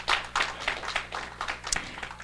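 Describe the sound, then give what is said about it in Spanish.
A church audience claps in a steady rhythmic beat, the claps moderately loud and evenly spaced over a faint low hum. “Así que denle un aplauso al Señor.”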